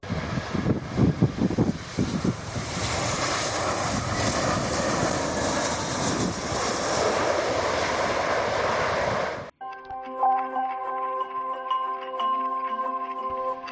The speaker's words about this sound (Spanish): Tras pasar varias horas en Reykjavik, este mediodía cogíamos por fin el avión y aquí estamos.